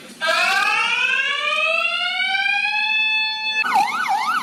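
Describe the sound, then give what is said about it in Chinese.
An electronic alarm, set off by a post office clerk during a robbery, sounds loud and alone: a long tone rising slowly in pitch, then switching to a rapid warbling wail. “邮局行员第一时间冷静按下警铃，并通报警方。”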